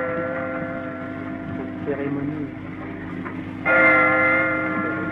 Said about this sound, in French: les sons que vous entendez, comme le glas actuellement et la sonnerie aux morts qui va succéder, sont des enregistrements qui ont été réalisés sur le vif